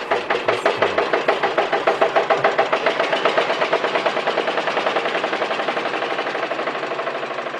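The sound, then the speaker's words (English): A Ford Model T car engine runs with a rapid, even chugging of regular put-put pulses, steady in rhythm and growing slightly fainter over several seconds. “you try driving through this infernal drive-thru. I have a Model T, and my feet itch.”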